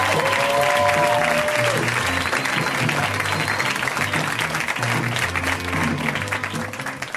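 An audience applauds a comedian coming on stage, with dense, even clapping throughout that eases slightly toward the end.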